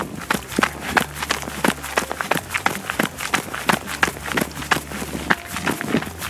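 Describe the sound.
Running footsteps crunch on a gravel trail under trail shoes, a steady, quick rhythm of many sharp, fairly loud strides with no voices.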